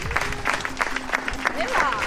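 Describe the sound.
Applause from families and children, all dressed in black, marks the end of a nine-day school protest; a short burst of scattered clapping with voices mixed in.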